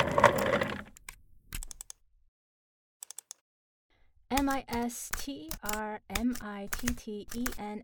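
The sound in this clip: Typing on a work laptop keyboard: a few crisp, scattered key clicks in near silence after a burst of noise, followed by a voice talking.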